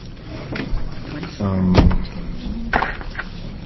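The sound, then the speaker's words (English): Chairs are carried and moved in a hearing room. A squeaky scrape ends in a solid clunk, and a few lighter knocks follow under murmuring voices. “Do you want to put the chairs up to you? You can carry them over.”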